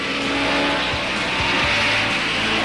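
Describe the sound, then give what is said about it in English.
Race cars roar around a circuit during a long race as one overtakes another, a loud, dense engine drone with a few quick downward pitch swoops as cars pass. “15 laps later, El Maestro overtakes the youngster again, only for Moss to once more motor past his mentor.”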